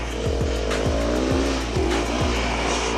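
A racing car engine accelerating in a video game, a loud, continuous revving drone with repeated rhythmic pitch shifts as it keeps pulling.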